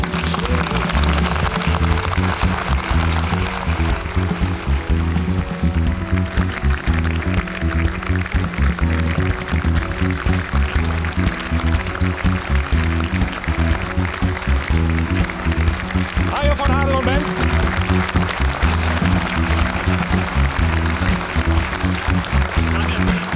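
Studio audience applause greets a guest, a former footballer and coach, on a TV show: steady, sustained clapping mixed with loud, rhythmic music.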